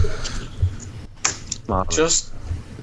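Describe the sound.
Typing on a computer keyboard: a few quick clicks and taps rattle under people talking, the voices dominating throughout.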